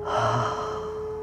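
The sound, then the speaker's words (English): A deep breath exhaled through the mouth during a guided relaxation, one soft, airy sigh that swells early and fades slowly over a steady low tone. “Take another deep breath in and breathe out. You may breathe out through the mouth.”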